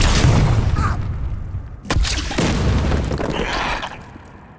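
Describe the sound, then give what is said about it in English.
Balls of energy from blasters exploding on impact in a sci-fi video game, with a loud opening blast, a sharp booming burst partway through, and rumbling, crackling noise in between. “Their blasters fire balls of energy that explode on impact.”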